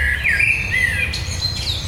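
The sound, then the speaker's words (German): A common blackbird sings loud, fluty warbling phrases that slide downward, followed by thinner, higher twittering notes over a low background rumble. “Das ist die Amsel. Hört ihr den Unterschied? Jetzt hört man den gerade richtig gut.”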